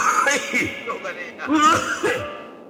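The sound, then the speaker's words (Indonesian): Coughing from an old man's voice, a few rough bursts mixed with voiced, throaty sounds. “Beda geus kolot mah batuk euy.”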